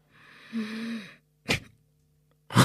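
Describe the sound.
A voice imitating a sharp, fearful gasp with no exhale: one drawn-out, voiced inhalation lasting about a second, followed by two short thumps after brief silences.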